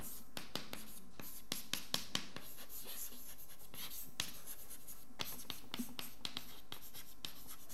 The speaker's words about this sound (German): also das schreibe ich mal eben auf, die Eigenfunktionen